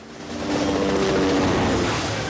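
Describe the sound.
Helicopter chasing snowmobiles across snowy ground makes a broad, rushing engine-and-rotor roar that swells in the first half second, then holds loud and steady throughout.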